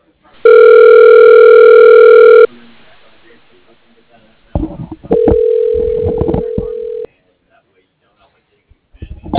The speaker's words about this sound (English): Okay, dialing.